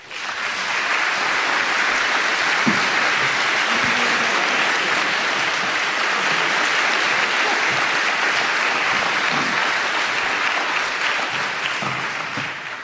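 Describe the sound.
An audience in Portland applauds to welcome a speaker to the stage, sustained, thick clapping that swells quickly, holds at a steady loud level for around twelve seconds, then eases slightly at the close.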